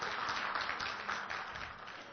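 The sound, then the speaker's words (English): Audience applause in a church, a dense, even wash of many hands clapping at a steady, moderate level for the whole stretch. “Yeah, somebody clap. There we go.”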